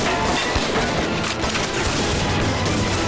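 Gunfire erupts in an audio drama shootout, a loud, dense barrage of overlapping shots that continues without pause.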